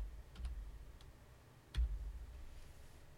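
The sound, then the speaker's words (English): Typing on a computer keyboard: a few faint, sparse key clicks with irregular gaps and no talk. “I'll just type in Sisolak pardons”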